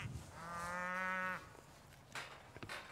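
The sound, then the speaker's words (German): Cattle in a herd with a breeding bull: one long, low, resonant moo swells and then stops, followed by quieter rustling and a few soft knocks. “Bernie ist der Zuchtbulle in der Herde und letztendlich unberechenbar.”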